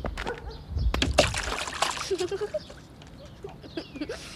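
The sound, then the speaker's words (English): A splash as someone jumps into a mud puddle after a running start, a broad wet burst about a second in, followed by softer sloshing and dribbling water sounds. “Are you afraid? Of a mud puddle? Of course not. I'll need a running start, but watch this.”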